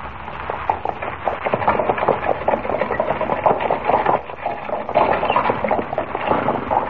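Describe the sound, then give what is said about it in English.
A horse-drawn buckboard wagon ride: a steady, loud, rattling rumble with a rapid, rhythmic clatter running continuously, as if wheels and hooves jolt over rough ground. “How do you like riding in a buckboard, eh? Sure does buck.”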